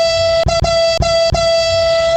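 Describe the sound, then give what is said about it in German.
A horn honks in one loud, sustained, steady tone that runs through the whole clip, broken by four very short gaps. “Ja, komm, da können wir doch hupen.”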